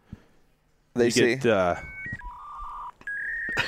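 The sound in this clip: A 28.8 dial-up modem connecting over a phone line, with a short burst of harsh, rasping screech followed by steady electronic beeps and tones that shift in pitch.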